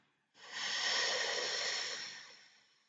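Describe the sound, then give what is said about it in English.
A person breathes out slowly during a breathing exercise. A single long, airy exhalation swells quickly, holds, then gradually fades over about two and a half seconds, heard alone. “Now just have a little break. Again, let us breathe out.”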